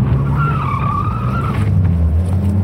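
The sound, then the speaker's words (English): Car tires spin and skid as the car dips off a highway into a grass median: a wavering high squeal over a loud, steady low engine rumble, with the squeal dropping away near the end. “The car shuddered as it dipped into a grass median. The spinning tires fought for purchase.”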